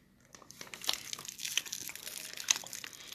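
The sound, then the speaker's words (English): Crinkling of a plastic candy wrapper being opened, a faint run of many quick crackles and rustles at an uneven rhythm. “You can probably open it. Up. There's no warning on yours. My candy's dangerous. I might cut all this crinkling out.”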